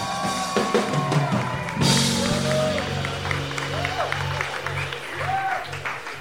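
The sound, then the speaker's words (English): An audience applauds and whoops as a comedian comes on stage, with continuous clapping and a few rising shouts. A swell of claps comes partway through. “Here she comes, everyone. Make some noise one more time for Lexi E.”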